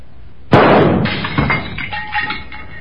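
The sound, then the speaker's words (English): A single loud gunshot in a duel breaks a candle holder. The sharp blast is followed by clattering, glassy debris and smaller knocks that fade out. “Well, sir, you have broken a candle holder and ruined a picture. Now I truly owe you a shot.”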